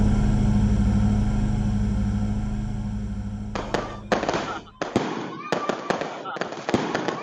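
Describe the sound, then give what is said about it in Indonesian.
A firecracker explodes after its fuse is lit on a pile of straw. A steady low rumble comes first, then a rapid run of sharp, loud cracking bursts. “Petasan itu meledak.”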